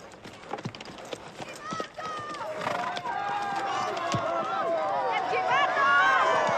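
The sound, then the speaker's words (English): Horses ridden through wooden gates into a small, dusty square: choppy clip-clop of hooves fills the first couple of seconds, then a sustained tonal sound swells and holds over them. “Doc and the regulators ride through some wooden gates into a small, dusty square.”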